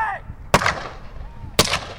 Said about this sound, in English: began firing blank ammunition into the air